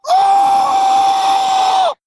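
A single loud human scream used as a soundboard bump, one sustained high-pitched cry held at a steady pitch for about two seconds before dipping slightly and cutting off sharply.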